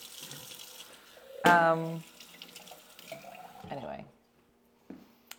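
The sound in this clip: Water from a tap runs into a sink: a loud, squeaky gush of about half a second, then softer splashing and trickling that fades to near silence with a small splash at the end.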